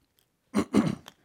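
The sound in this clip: Throat clearing during a spoken Bible reading: a brief, rough guttural sound in a couple of quick bursts, the second longer and raspier, heard on its own.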